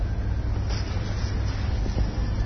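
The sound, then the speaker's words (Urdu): An electric generator runs with a steady, droning rumble that stays heavy in the low end at a constant, fairly loud level with no pauses. “Generator بند کر دو”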